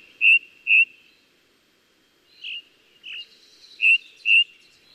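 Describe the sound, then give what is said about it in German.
A ring ouzel sings in open upland near a mountain summit where the forest ends. It gives six clear, loud whistled notes in three pairs with short silences between, a repetitive, slightly melancholy phrase. “Allerdings müssen sie schon sehr früh aufstehen, denn die Ringdrossel singt am liebsten richtig knackig früh morgens,”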